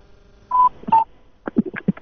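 Two short telephone keypad tones sound as a caller's cheek presses the buttons during a call. A quick cluster of brief choppy noises follows them.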